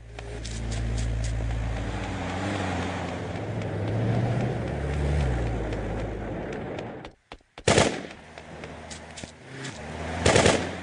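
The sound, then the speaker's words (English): Machine gun firing in short, loud, sharp bursts after a long rumbling, engine-like drone, with two distinct volleys toward the end. “Machine gun!”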